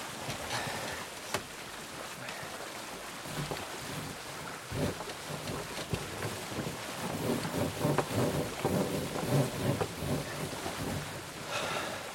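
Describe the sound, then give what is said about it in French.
Strong wind blows at sea around a sailing fishing boat in stormy weather, a steady, rough roar of buffeting gusts that swells in places, with no voices. “Ça souffle trop fort.”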